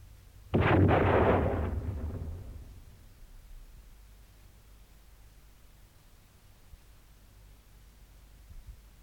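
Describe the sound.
A French firing squad fires one loud volley at a prisoner in a Napoleonic-era radio drama. The blast is heavy and noisy, fades over about two seconds, and is followed by near silence.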